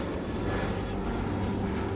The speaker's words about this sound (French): Allez, on prend l'avion et on s'envole aujourd'hui vers la forêt tropicale